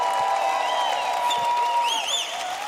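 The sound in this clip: Audience applause at a concert as the band's drummer and bassist are introduced, a steady, even patter of clapping with sustained musical tones lingering underneath.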